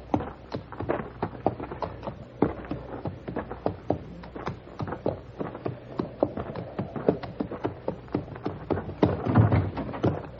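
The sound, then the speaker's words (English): Hooves of a shod horse, with a pebble wedged between shoe and hoof, clip-clop steadily in an old western radio drama, many crisp knocking steps in an even walking rhythm with no talk. “Wedge this pebble between the shoe and the hoof of my horse.”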